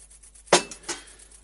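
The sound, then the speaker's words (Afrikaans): A cooking pot is set down, making two clinks: a sharp, bright first knock and a softer second one a moment later, alone in near silence. “nie terwyl ek nog hier is, sit die pot neer.”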